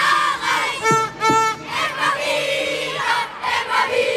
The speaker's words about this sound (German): Da wird schon gesungen. Freude groß, oder?